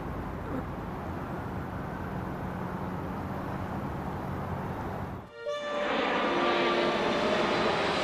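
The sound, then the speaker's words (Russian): Airplane flying overhead, a steady broad engine roar throughout; it briefly dips, then swells back slightly louder with high whining tones riding on top. “Летит самолет.”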